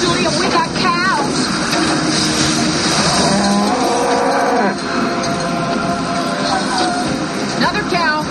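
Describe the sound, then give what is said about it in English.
Cows moo a few times in a scene from the film Twister, the drawn-out calls rising and falling over a dense, roaring soundtrack. “Actually, I think that was the same one. Another cow. We got cows. We got cows.”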